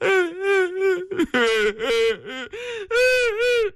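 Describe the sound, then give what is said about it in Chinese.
A storyteller's voice imitates two women wailing and crying as they plead with an official: wavering, high, sobbing wails in several sustained bursts separated by short catches of breath, with no other sound around them. “妇女俩又哭了。”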